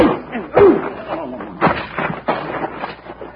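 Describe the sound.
Punches landing in a fistfight: a few dull, heavy thuds strike amid scuffling, with voices and grunting around the blows.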